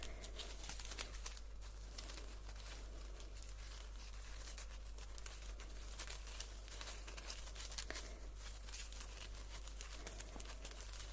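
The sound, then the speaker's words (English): A tangled tape measure being handled gives faint, irregular crinkling and rustling throughout, with soft crackles over a low, steady hum. “A very tangled tape measure. Just focus on the tape measure.”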